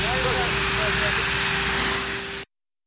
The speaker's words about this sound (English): You could hear the helicopter in the background drowning things out.